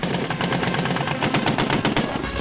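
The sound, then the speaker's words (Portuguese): Heavy military weapons fire during a joint Brazilian and American training exercise in São Paulo and Rio de Janeiro, dense and continuous with many loud, sharp overlapping reports and no pauses. “Um campo de guerra. Toda artilharia em defesa do território morteiros, canhões.”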